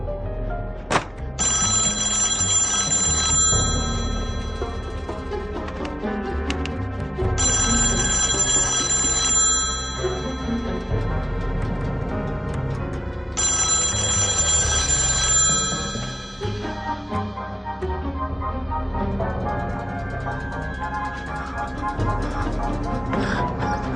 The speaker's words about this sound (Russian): Так еще раз звонит, вы не возьмете разве?